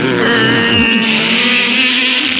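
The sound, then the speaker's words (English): A car engine runs in a drag race in Southern California, giving a loud, steady, droning roar with strong tonal harmonics that continues without a break and with no voices. “you want to do a drag race? Yeah, man. That's how we do it here in Southern California. Jump in, Brody. I already got the car running.”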